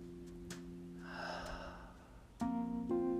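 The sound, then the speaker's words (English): A soft, deep breath taken during a guided meditation, drawn in and let go as a slow, airy rush, faint beneath a quiet sustained musical drone. “You're going to take a deep breath in through your nose, more air than you think you need. And open your mouth and let it go.”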